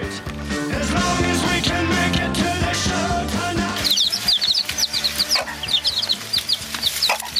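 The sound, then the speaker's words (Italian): Chicks peeping: many short, high chirps pile up in the second half, over a dense, loud, steady background. “Lo sai come fanno i pulcini? I pulcini? Il pigolio dei pulcini, sai come fanno?”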